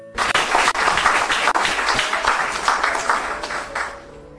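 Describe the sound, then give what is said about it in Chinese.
An audience applauds a Falun Gong exercise demonstration with loud, dense, continuous clapping that holds steady throughout and tapers slightly at the very end. “学员们精彩的表演博得观众的热烈掌声。”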